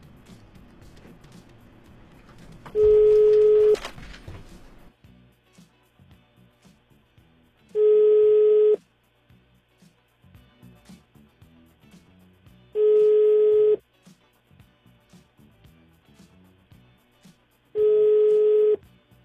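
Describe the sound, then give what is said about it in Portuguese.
Outgoing telephone ringback tone of a call that goes unanswered: four steady, mid-pitched one-second tones spaced evenly about five seconds apart, with faint low noise between them. “Estamos tentando mais uma vez fazer contato.”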